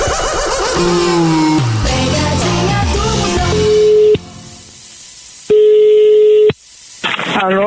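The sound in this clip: Telephone call being dialed and connecting for a prank call, with stepped electronic tones giving way to two long, steady, loud ringing tones separated by a short silence.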